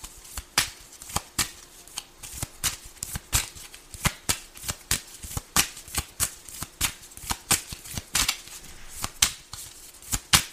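Playing cards being shuffled and handled during a card game: many crisp, rapid riffling snaps in a steady rhythm, loud and alone with no talk.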